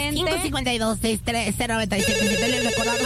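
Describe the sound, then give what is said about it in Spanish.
A telephone rings with an incoming call on a live radio show, a repeated electronic ringtone pattern that starts under voices and then continues as steady held tones. “Y también tenemos una llamada, hola.”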